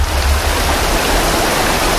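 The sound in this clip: River water flows in a loud, steady, unbroken rushing wash with no other sounds.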